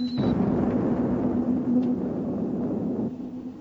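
A spaceship blows up under laser fire, a deep sustained rumbling roar that lasts about three seconds and then fades, with a brief high tone at the very start.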